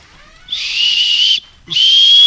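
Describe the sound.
Shrill, high whistle blasts from a whistle used as a quiz answer prop. Two sustained, steady blasts sound: the first lasts about a second, and after a brief gap the second starts and runs to the end, loud and alone.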